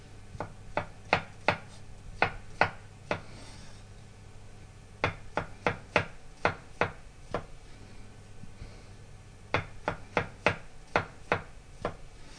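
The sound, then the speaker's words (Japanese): Knife thinly slicing button mushrooms, stems trimmed off, on a cutting board: many crisp, sharp taps in three quick runs separated by short pauses, with no talking. “エリンギとマッシュルームを切ります。マッシュルームは軸の部分を落として薄切りにします。”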